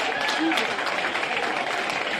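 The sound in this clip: Audience applause for a guest, a dense, even clatter of clapping that holds steady throughout, with faint voices mixed in.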